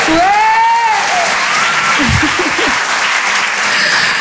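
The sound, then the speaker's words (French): Audience applause for a stand-up comedian's 34th birthday at a comedy show: loud, steady clapping fills the whole stretch, with a few voices mixed in. “J'ai eu 34 ans lundi, donc faites du bruit pour ça, s'il vous plaît.”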